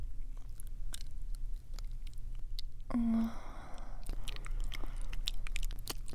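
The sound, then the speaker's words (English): Wet kissing sounds from close mouth noises, a string of soft smacks and lip pops with a brief louder squelch near the middle, with no talk. “But first, just a couple more kisses.”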